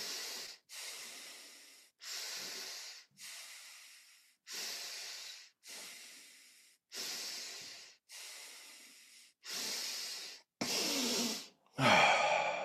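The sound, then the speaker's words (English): Deep breathwork breaths in a slow, steady series, each long hissing inhale or exhale alone and of similar loudness, ending in a louder voiced sigh. “So that was four connected breaths followed by a sigh.”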